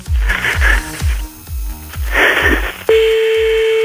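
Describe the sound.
Telephone dialing and calling, as someone at random is phoned. A quick series of repeating electronic beeps is followed by a steady, sustained call tone.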